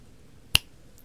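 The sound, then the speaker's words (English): A single crisp, bright finger snap cuts through near silence, then fades at once. “when I snap my fingers, you'll wake up”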